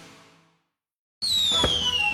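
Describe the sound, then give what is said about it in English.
Fireworks go off after a brief silence: a sudden loud burst with a high whistling tone that falls in pitch, then a sharp bang. “Fireworks over Florence return Saturday, July 4th at the Florence Soccer Complex.”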